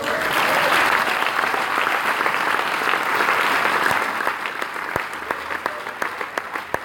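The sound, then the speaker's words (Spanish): A church audience applauds the Lord in a dense, loud burst of clapping that thins out after a few seconds into scattered, separate claps. “Llévalos a la fiesta. Denle un aplauso al”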